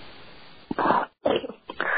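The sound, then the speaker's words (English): A coughing fit from someone with allergies: three harsh, rough bursts in quick succession after a stretch of quiet background hiss, the first two fuller and the last one shorter. “I apologize for the coughing attack”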